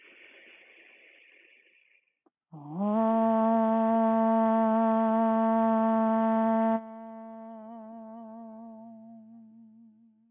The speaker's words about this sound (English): Let's seal that intention with a nice resounding om. So inhale to prepare.